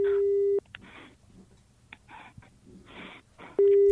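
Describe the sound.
Telephone busy signal after dialing: a steady low tone at the start and again at the end, separated by about three seconds of quieter, irregular noises.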